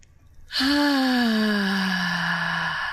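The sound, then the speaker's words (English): A deep breath let out as a long voiced sigh during a breathing exercise. It starts suddenly and holds fairly loud, with its pitch gliding slowly downward over a few seconds. No one speaks. “So I'd like for you to begin to take some deep breaths. Once more.”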